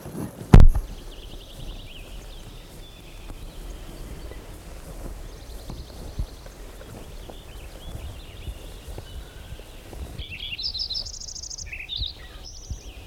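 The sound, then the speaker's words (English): Lincoln's sparrow song, a brief burst of high, rapid, bubbling trills near the end that follows faint scattered chirps over low background noise, with one sharp click at the very start. “Lincoln Sparrow number one. One.”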